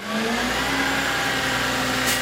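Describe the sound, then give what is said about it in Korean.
A garbage truck engine runs in a loud, unbroken mid-pitched drone with a steady harmonic hum, holding an even level without clear revving from start to finish. “쓰레기 수거차 운전사인 샌더스 라이트 씨는 자신의 트럭을 무척 자랑스럽게 생각했습니다.”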